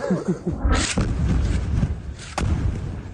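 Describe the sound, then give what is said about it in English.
Explosion from an Israeli airstrike on a desalination plant in the Sheikh Radwan neighbourhood of Gaza City: a heavy boom rolls into a long, loud rumble, and a second sharp blast cracks out near the end. “This is the moment an attack targeted a desalination plant in the Sheikh Radwan neighbourhood. A mosque was also hit.”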